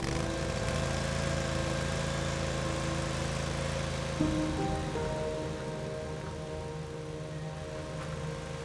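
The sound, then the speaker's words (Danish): A ride-on garden tractor driven across the grass in front of a farmhouse drones with a steady, humming engine tone; the pitch shifts partway through and the sound then grows slightly quieter. “på græsset foran stuehuset kører en ældre mand på en havetraktor, som jeg ikke kan lade være med at lægge mærke til.”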